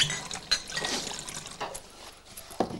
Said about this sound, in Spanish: El camarero rellena una botella.